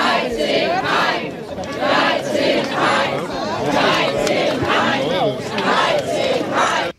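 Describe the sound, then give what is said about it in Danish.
Crowd shouting at the inauguration of a new national park in Gribskov by the environment minister. Loud voices rise and fall in repeated, roughly regular chant-like bursts. “og vi kan jo lige høre, hvordan det lød, da Miljøminister Maria Reumert Gjerding skulle indvide den.”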